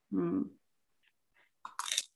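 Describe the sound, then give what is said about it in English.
Crunchy bite into a toasted bagel: a brief hummed voice comes first, then after a quiet pause a short, crisp crunch breaks out in a couple of quick bursts. “I like that crunch. Clearly, it's a nice toasty bagel.”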